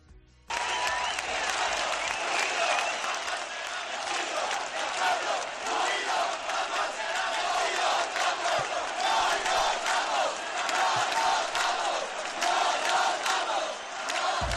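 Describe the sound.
A large crowd chanting at a mass street protest in May 2011, a dense, continuous roar of many voices shouting a Spanish-language slogan in unison, loud and steady throughout after an abrupt start.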